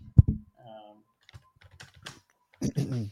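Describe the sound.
Quiet typing on a computer keyboard. A few sparse, soft clicks fall between short bursts of talk.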